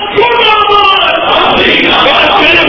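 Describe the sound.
A dense roar from a crowd at a protest rally, many voices shouting together loudly and continuously with no break for nearly three seconds.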